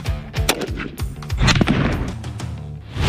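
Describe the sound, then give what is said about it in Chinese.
Gunfire from armed police special forces during precision target shooting training using vehicle roof, rear and front positions: many sharp, loud shots crack out in rapid, irregular bursts, overlapping at times. “此时他正在对00后特战队员进行精准目标射击特训。”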